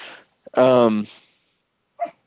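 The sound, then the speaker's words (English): A dog gives one loud, drawn-out bark, and a brief, fainter yelp follows about a second later in otherwise quiet surroundings. “Shut up, dog.”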